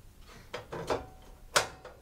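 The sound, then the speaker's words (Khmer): A gas stove is being lit to heat a pan, with a few faint, sharp mechanical clicks and knocks from the knob and igniter. The strongest click comes near the end. “នៅពេលនេះគឺអ្នកខ្ញុំបានបើកភ្លើងដើម្បីឲ្យខ្ទះបានក្តៅបន្តិច”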